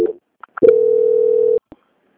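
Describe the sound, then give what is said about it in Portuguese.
Telephone line tone plays while a bank's customer call is transferred to quality control: one steady mid-pitched tone lasting about a second, with brief clicks just before and after. “Eu peço que o senhor aguarde em linha, que eu vou transferir o contato para o controle de qualidade que dará continuidade à sua contratação.”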